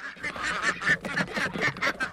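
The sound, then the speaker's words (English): A flock of ducks and geese let out of their farm house at sunrise quack and honk in a rapid, overlapping run of many nasal calls that continues without pause. “heads to what he calls the quack house to let out his flock. Release the quacking!”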